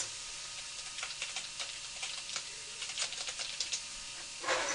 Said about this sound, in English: Now what I want to do is start up Chrome. And we'll type in Wikimedia Commons.